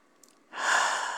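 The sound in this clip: A single long, soft exhale breathed out onto someone, breathy and even, rising in after a short near-silent lead-in and holding steady to the end.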